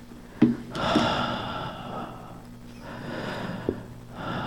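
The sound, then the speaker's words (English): A voice imitates warm, sensual breathing on an ear with slow, airy, breathy exhalations and a few soft sharp catches of breath. No words are spoken. “You can feel my warm, sensual breath on your ear.”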